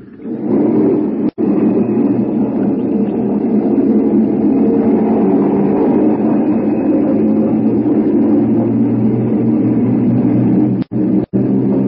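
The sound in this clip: A military aircraft engine roars steadily on a runway while preparing for takeoff, a loud, low, continuous drone that holds an even level for the whole stretch, broken only by a few abrupt, momentary dropouts.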